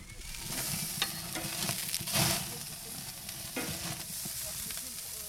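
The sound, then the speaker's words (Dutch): Thin slices of very fatty pork sizzle over open flames that flare up from below as they grill briefly. A steady loud hiss is broken by a few sharp crackles and pops. “varkensvlees, met heel veel vet. Zie je van die vlammen die er van onder uitslaan. En die grill ik kort, bijna als een biefstuk.”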